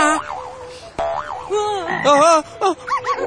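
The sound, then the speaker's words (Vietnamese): Cartoon-style frog croaks come as a series of springy, warbling calls with wobbling, bouncing pitch, loud and alone, some short and some drawn out. “Cũng tại em hết, làm cho con ếch sợ chạy mất rồi kìa.”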